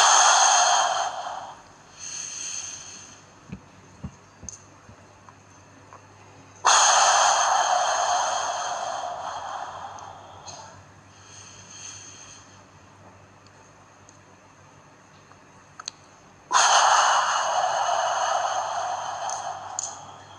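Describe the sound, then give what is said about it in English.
Breath blown out hard through the mouth during a paced breathing exercise: three long, loud, airy exhalations, each lasting several seconds, with softer breathing and quiet held-breath pauses between them. “hold your breath for a count of seven, blow air out through your mouth to a count of eight, and you do that for a total of four breath cycles. So I'll demonstrate this to you.”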